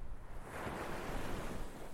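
Ocean waves wash steadily as a ship sets sail, a broad hissing surf that swells slightly and then holds at an even level throughout.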